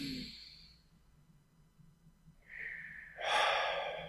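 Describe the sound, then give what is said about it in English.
A deep breath drawn in during a guided meditation. It starts as a faint, airy hiss and swells into a louder, rushing inhale toward the end. “Breathe in.”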